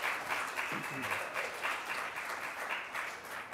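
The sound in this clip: Applause from an audience at a talk in Los Angeles about KHJ and the Boss Radio era of the late 1960s: a steady, even wash of many people clapping that holds at moderate loudness throughout.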